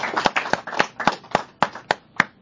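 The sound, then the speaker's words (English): Church audience clapping as an offering to the Lord: about eight sharp, evenly spaced claps in a steady, unhurried rhythm, crisp and moderately loud with brief quiet gaps between, and no talk over them. “Can we just give the Lord a clap offering? Can we do that?”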